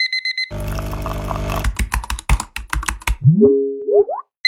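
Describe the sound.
Fast typing on a computer keyboard, a dense clatter of keystrokes thinning into sharper separate clicks. A short repeated electronic beep comes before it, and a few rising, springy tonal sweeps follow.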